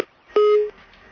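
A telephone tone sounds after a dropped call: a single short, steady electronic beep lasting about a third of a second, alone against near silence.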